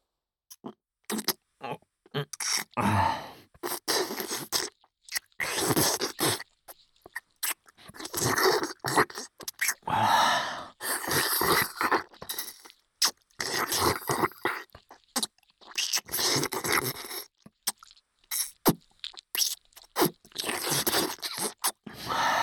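Wet licking and mouth sounds from someone licking a partner's breasts during intimate role-play: many short, soft smacks and slurps in uneven bursts separated by brief pauses, with no talking.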